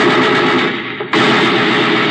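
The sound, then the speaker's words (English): Sustained, dense machine gun fire in a radio drama, loud and continuous with one brief dip partway through before the burst resumes at full force. “give me that machine gun. Thanks. All right. Whichever one of you fired that shot...”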